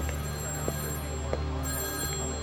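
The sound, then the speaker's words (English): A telephone rings in a house, a steady, even ringing over a constant low hum, with a couple of faint clicks and no talking. “A moment later, the phone rings.”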